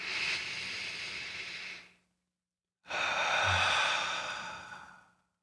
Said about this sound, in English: take a deep breath with me right now